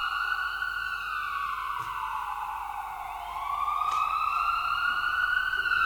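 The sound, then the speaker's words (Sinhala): An ambulance siren wails steadily and loudly on its own, with layered tones sliding slowly down in pitch and then climbing again, continuous across the whole stretch. “Ambulance එකේ ශබ්දය. ඔයගලන්ට නිතරම ඇහෙනවා.”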